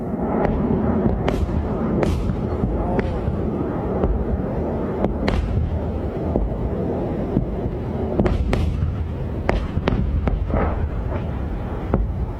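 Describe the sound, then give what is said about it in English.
Many sharp pops come from PAC-3 Patriot interceptor missiles firing at incoming drones and missiles in Bahrain. They are irregularly spaced over a constant loud, rushing, wind-like rumble. “And so each of those pops, those are PAC-3 Patriot missile interceptors, $4 million a hit.”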